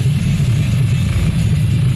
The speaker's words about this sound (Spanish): Aquí estamos en un tremendo congestionamiento vehicular.